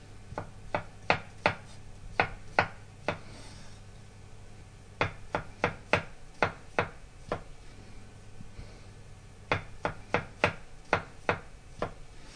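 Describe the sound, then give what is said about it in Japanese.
A knife thinly slices button mushrooms, stems removed and cut side down, along with king oyster mushrooms on a cutting board. Many quick, crisp taps fall in three separate runs, quiet and with no voices. “マッシュルームは軸の部分を落として薄切りにします。軸を取った方を下にしておいて端から薄切りにします。”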